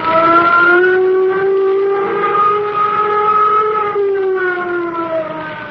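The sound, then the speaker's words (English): A flight warning siren wails at a jet control tower with one loud, sustained harmonic tone. Its pitch rises slightly at first, holds, then sinks gradually as it drones on alone. “Sound flight warning signal.”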